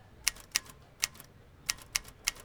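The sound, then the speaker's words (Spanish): Keys strike on a manual typewriter used by a street scribe to fill in documents and forms: six sharp, faint clacks in an uneven rhythm, with short gaps and one longer pause midway, and no voices. “nunca va a desaparecer la máquina de escribir manual, porque necesitan llenar documentos o formatos que no se pueden llenar en un computador.”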